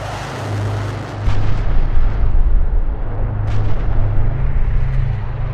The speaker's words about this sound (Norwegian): mens Mohammed sover på et teppe I onkelens hus, nærmer et bombefly seg.